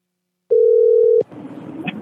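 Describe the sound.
A steady, mid-pitched telephone tone sounds for under a second after silence while calling back a customer on a dropped line, then cuts off to faint line hiss and rustling.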